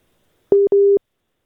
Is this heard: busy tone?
yes

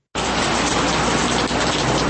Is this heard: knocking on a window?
no

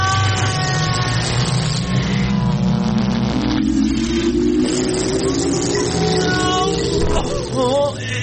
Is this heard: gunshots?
no

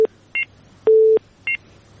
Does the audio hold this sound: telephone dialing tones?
yes

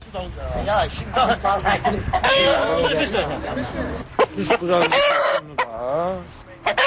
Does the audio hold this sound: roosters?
yes

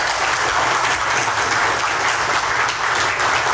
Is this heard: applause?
yes

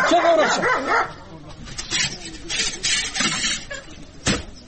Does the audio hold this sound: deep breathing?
no

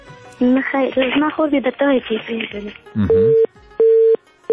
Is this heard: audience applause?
no

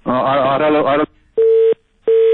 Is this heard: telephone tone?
yes

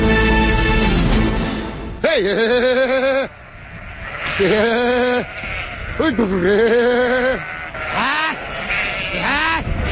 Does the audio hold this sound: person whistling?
no

